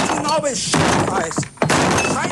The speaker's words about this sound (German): Und deswegen mache ich jetzt hier diesen Tisch mal kaputt, ja?